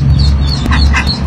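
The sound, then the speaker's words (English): Several ducklings trapped in a Saskatoon storm sewer peep in faint, high, scattered chirps over a constant low rushing rumble. “that's the sound of several ducklings trapped in a Saskatoon storm sewer.”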